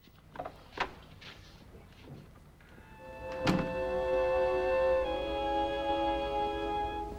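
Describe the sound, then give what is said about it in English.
A door shuts with a single solid thunk after a few faint earlier knocks. A steady, sustained tonal hum follows and continues to the end. “He leaves the room, shutting the door behind him.”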